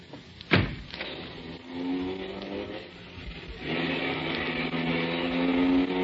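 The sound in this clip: A car drives off after a passenger tells the driver to go. A sharp knock comes first, then a low engine drone builds and grows steadily louder to the end.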